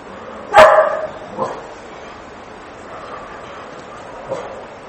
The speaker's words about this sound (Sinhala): බල්ලා ගුරන. මේ කොහේ ඉන්න බල්ලද බිරුවේ?